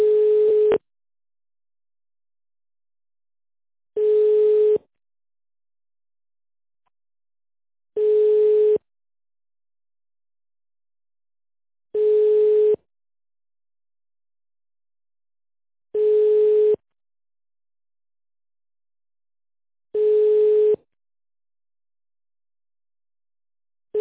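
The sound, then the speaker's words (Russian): Telephone ringback tone while a call is connecting: a steady mid-pitched beep about a second long, repeating every four seconds with silence between, heard alone with six full tones. “Мы не получили действительный ответ. Подождите, идет соединение.”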